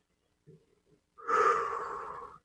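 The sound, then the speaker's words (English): A deep breath: one long, soft inhale of about a second, preceded by a couple of faint small breathy sounds. “Deep breath.”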